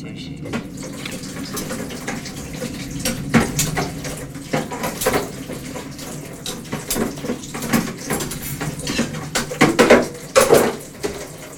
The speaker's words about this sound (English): He rinses knives in the sink.